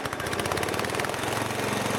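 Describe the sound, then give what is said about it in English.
A diesel-powered peanut grinder runs in a peanut butter factory. Its engine makes a loud, steady, rapidly pulsing chug and drone that stays constant throughout. “The diesel engine pumps out 12 times that amount in just a fraction of the time.”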